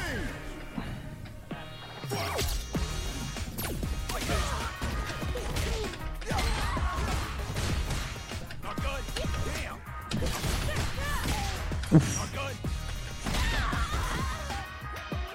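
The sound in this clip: Knee strike hits in the Street Fighter 6 fighting game: many sharp smacks and crashing impacts over dense game music, with one especially heavy blow standing out near the end.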